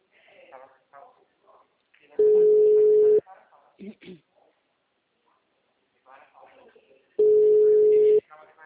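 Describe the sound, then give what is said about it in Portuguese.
Two long, steady telephone ringing tones, each about a second, sound several seconds apart as an outgoing call rings. A person talks before and between them. “Eu vou ligar pro Paulo.”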